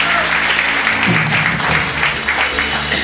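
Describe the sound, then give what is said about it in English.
Congregation at a church service applauding to welcome online viewers: dense, steady clapping that holds at an even level for about three seconds, with a low hum underneath. “Can we welcome everyone online? Come on, can we give them a big hand?”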